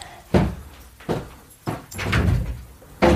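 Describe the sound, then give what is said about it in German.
A window is opened with four dull knocks and a longer scraping slide partway through. The sounds are fairly loud and there is no talk. “Darf ich mal das Fenster aufmachen”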